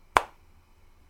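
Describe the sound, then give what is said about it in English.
One crisp finger snap, made with the hand reached out in front of the body, cracks briefly and fades fast in otherwise quiet surroundings. “And then reach out in front of you and snap your fingers.”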